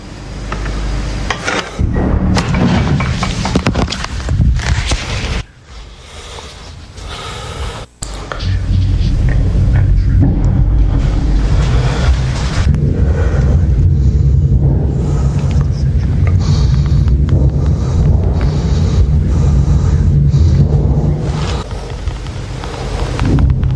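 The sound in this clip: Bomb explosions heard from inside a shelter: heavy, loud, low rumbling booms that roll on continuously with a rough, wind-like noise. The sound dips briefly, then swells back to a sustained roar.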